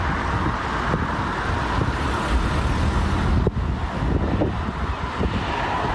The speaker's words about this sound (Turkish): Yollarda uzun araç kuyrukları oluştu.